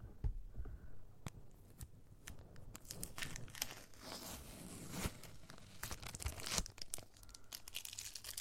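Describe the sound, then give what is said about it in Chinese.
Something is being torn open, giving a quiet run of irregular crinkly rips and crackles over a soft low hum, with no talking. “给你撕开”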